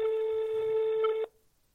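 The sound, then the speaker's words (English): A phone call ringing out after dialing: one steady, buzzy tone holds for over a second and then cuts off abruptly, leaving near silence. “And so I hit the dial button.”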